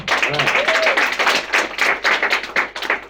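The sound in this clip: An audience applauds to welcome a speaker, with many overlapping hand claps forming a lively, slightly uneven patter that pulses without pause from start to end.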